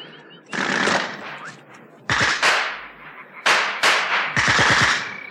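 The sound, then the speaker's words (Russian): Automatic gunfire erupts near a marsh in four sharp bursts, each a rapid volley of loud cracks with short ringing tails. Brief lulls separate the bursts, and no voices are heard. “Ни у Алехина, ни у Таманцева не было с собой автоматов. Кто стрелял?”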